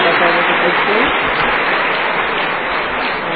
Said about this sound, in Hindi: सभी जोर से ताली बजाते